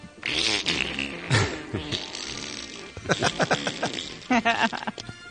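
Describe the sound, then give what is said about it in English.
A loud, spectacular fart bursts out during a recorded interview between actors, a long sputtering run of buzzy, uneven pulses with several louder bursts near the end. “And about 18 minutes in, you can hear Shatner fart. Pretty loud. Spectacular.”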